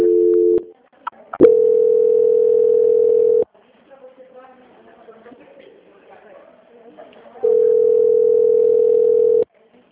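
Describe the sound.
Steady electronic telephone tones play while a sales call is placed on hold for transfer to a quality-control department. A brief dual tone opens, followed by two long, level, mid-pitched tones of about two seconds each, with faint muffled sounds between them.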